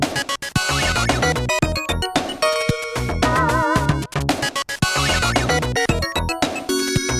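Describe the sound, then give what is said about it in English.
FM synth music from a Treasure video game, with an 80s sound, plays as a busy, fast track with a driving percussive beat, bright synth leads and a wavering vibrato line midway, loud and continuous. “Got an 80s sound to it, kind of, you know. I love the FM sound. It's so good, you know, the FM synth sound is so good.”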